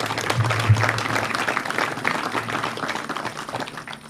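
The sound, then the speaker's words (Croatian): Audience applause at a community cultural event: dense, continuous clapping from a crowd that holds steady and eases slightly toward the end. “Molim vas jedan pljesak za sve što Bilik gradi.”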